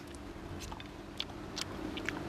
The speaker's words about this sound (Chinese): 这尝一下，我们今天做的这个葫芦菜，先尝一下这个葫芦炒肉